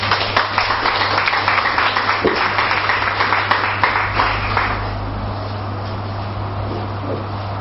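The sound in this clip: An audience applauds to welcome a speaker at a reading. Dense clapping lasts about five seconds, then thins and fades over a steady low hum.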